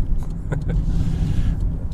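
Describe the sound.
Car engine and road rumble from a car driving over a hilly, curving road, a steady low drone that runs the whole clip with faint voice-like sounds above it.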